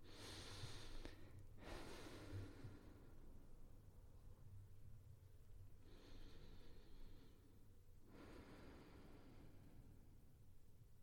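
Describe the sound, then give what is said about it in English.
Slow, steady, relaxed breathing in the dark early morning: long, soft, airy inhales and exhales with brief pauses between them, even in rhythm and fairly quiet, with no talk. “what I'm doing there is that I am breathing a breath that is at a steady and relaxed rate”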